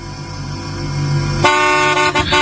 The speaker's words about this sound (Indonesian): Beberapa kali aku klakson, tidak ada yang datang.